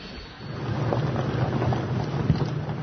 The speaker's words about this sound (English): The sound of artillery echoes from afar, but the threat is very close.